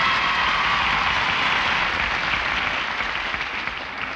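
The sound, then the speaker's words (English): An audience gives Nat King Cole a royal welcome from the balcony and floor with dense, continuous applause that holds steady and fades only slightly toward the end. “free cigarettes and applause would be asking too much. But naturally, since our guests have to pay for their old golds, we like them to get a royal welcome. So cut loose there, balcony.”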